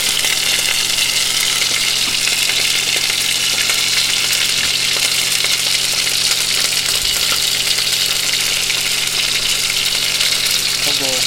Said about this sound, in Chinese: 我们现在煎的就是传说中造成地球暖化的元凶——畜牧业里面的肉牛。